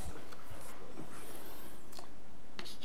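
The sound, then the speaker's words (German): Scratchy writing strokes as an equation for the electric field is written down, with short faint bursts over a steady hiss and no voices. “Und das schreiben wir jetzt einfach auf.”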